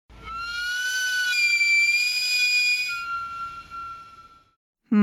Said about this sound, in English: A camote cart. A camote cart.